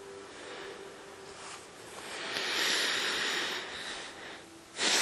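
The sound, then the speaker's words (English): Labored breathing pushed out through the nose, a rough, snorting nasal rush of air that swells in the middle and surges again sharply at the end, with no talk. “It's really hard for me to breathe out my nose.”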